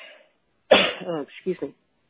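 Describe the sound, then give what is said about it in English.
One sharp cough bursts out after a short quiet pause, followed by a few short, rough voiced sounds like throat clearing. “somebody else has some coughing going on too, along with me.”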